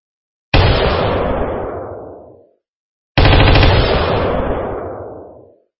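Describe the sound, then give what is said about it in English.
Two loud, sharp shots from an AR-15 semi-automatic rifle, spaced a few seconds apart, each a sudden blast followed by a long, fading tail that dies away before the next shot. “That was the AR-15 semi-automatic rifle.”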